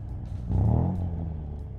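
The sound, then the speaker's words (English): Engine of an almost new Lancia Italian sports car on a motorway at night, a low rumbling drone that swells into a louder rev about a third of the way in and then holds steady. “Ray struggled a bit with the gears of this Italian sports car, as when he slipped from third to fourth, they crunched.”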